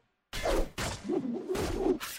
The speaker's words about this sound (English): That wonderful creaking. As they're trying to shoot all the orcs down off the ladders. All those wood creaks. Those sword and shield impacts.